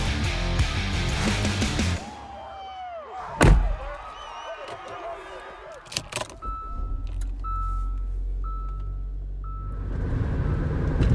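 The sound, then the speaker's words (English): Car interior noise while driving on the way to Fulton: a steady low engine and road rumble, a loud slam-like thump early on, and a few short tonal chimes later. “I'm in the car right now on my way to Fulton.”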